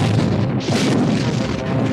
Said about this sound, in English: Fire photon torpedoes. The torpedoes shot away and blasted into the Reliant, nearly ripping her apart.